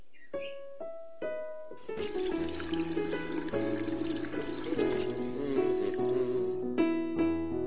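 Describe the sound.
Water runs from a tap as a carrot is washed, a steady rushing pour that follows a few short musical notes and continues with music beneath it.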